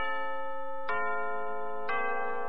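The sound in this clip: A radio time-signal chime marks six in the evening with a steady, sustained ringing tone. Two struck accents fall about a second apart, each renewing the bright layered tone, with no voices over it.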